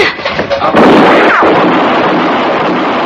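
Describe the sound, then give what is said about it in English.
A single loud gunshot cracks out in a drama scene after a faint voice, followed by a long, noisy roar of echo that gradually decays. “No more! Don't shoot again. Just stand easy, mister. You shot him. You shot my boy.”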